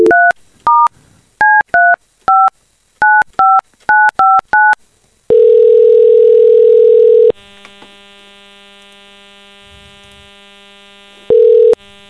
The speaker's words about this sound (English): So we're going to call one of those people who texted us.